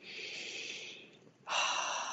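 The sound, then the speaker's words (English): A deep breath taken during a guided meditation exercise: soft breathy airflow for about a second, a brief pause, then a stronger and louder rush of air that lasts to the end. “Take one more deep breath into your heart.”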